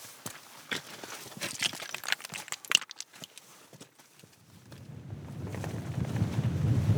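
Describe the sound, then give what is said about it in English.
Wind buffets a breezy mountain ridge top as a low, rumbling roar that builds and stays loud through the second half, after an opening of scattered crunching taps. “Breezy top of the Ladstones Ridge”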